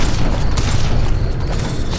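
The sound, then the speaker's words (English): Gunfire and explosions in a video game as enemies are blown up and shot: a loud, continuous roar of blasts and booming rumble with no clear gaps. “Yes, blowing them all up. All right, we're shooting that guy over here.”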